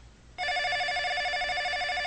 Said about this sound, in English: Well, let's hope this is them. Nancy picks up the phone.